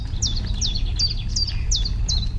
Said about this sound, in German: Die Gruppe bleibt stehen, lauscht gespannt dem Konzert der Natur. Scheinbar unsichtbar finden sich die verschiedensten Vogelarten in den Wiesen zusammen, um gemeinsam ein großes, vielstimmiges Konzert zu geben.